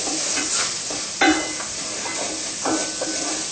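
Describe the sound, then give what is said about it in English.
Vegan butter heats and sizzles in a pot used for cooking curry, giving a steady bright hiss with a few louder scraping bursts from stirring mixed in. “We also put like a tablespoon of oil. Vegan butter in place of oil.”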